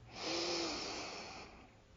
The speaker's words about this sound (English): Long breath in, exhale out, another breath,